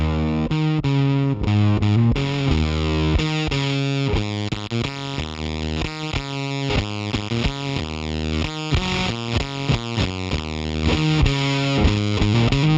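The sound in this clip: Electric guitar played through a ZVEX fuzz pedal rings out as thick, saturated, buzzing chords and riffs. The heavy, sustained tone stays loud and steady throughout, with no talking.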